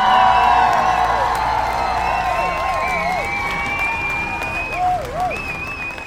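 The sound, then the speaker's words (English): Audience applause and cheering welcome the two hosts of a law-themed show, dense clapping mixed with bright whistled whoops that slowly fade. “put your hands together for the host of Justice for All, Josh Scarpello and Pierre Latour.”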